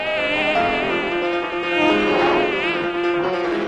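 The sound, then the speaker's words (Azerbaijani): A housefly buzzes continuously and loudly, its droning wingbeat tone wavering slightly up and down in pitch throughout, with no other sounds or voices. “Milçək bu dəfə uçub aslanın qulağına girdi. Orada vızıldamağa, qulağını dişləməyə başladı.”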